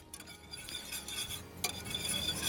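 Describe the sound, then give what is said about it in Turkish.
Food being stirred in a pot, heard as faint, quiet clinks and soft scraping of a utensil against the pot in an irregular rhythm, with no voices. “Bunu karıştırıyorum. Birazcık da zeytinyağı koyabiliriz.”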